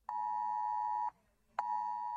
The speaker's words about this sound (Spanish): Así han sonado los móviles de algunas personas que se encontraban en los municipios de Becerril de la Sierra, El Boal, Ocer, Cerceda, Mata del Pino y Manzanares el Real